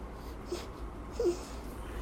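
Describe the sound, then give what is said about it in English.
Faint, small sleepy noises from a baby while breastfeeding: two brief, soft, slightly tonal murmurs about a second apart over a quiet, steady low hum. “I'm breastfeeding right now, if you don't know, so you can hear my dreaming child.”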